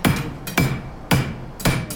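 A blacksmith hammers hot metal on an anvil, striking a few heavy, ringing blows in a steady rhythm about half a second apart.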